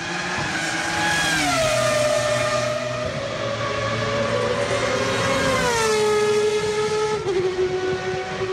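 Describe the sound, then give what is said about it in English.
Race cars lap a speedway track, their high engine whine sustained throughout, with the pitch dropping a few times as cars sweep past. “That was Bud and some of his friends making some haste around that track.”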